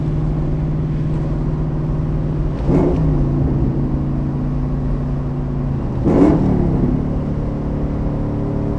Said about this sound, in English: I'm going to put the mic down in my lap and run through third and fourth. Both windows down.